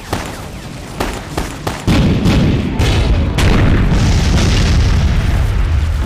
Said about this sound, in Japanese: やはり砲兵中隊を投入しましょう。 では何発か撃たせてやる。